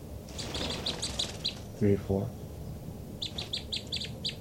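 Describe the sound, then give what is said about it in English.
High, quick chirping calls from two birds in two bursts, one early and one late, with a brief voice in between. “Both birds. Recording the birds again.”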